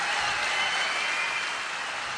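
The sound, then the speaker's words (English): Dense, steady applause from a big band concert audience, an even wash of clapping that holds at a constant level throughout with no voices standing out. “So let's give a big round of applause to this situation.”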